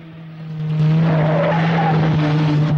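Engine drone and tire skid of a jeep swinging round a bend in a dirt track in the hills, a loud steady motor tone swelling after the first second and holding strong to the end.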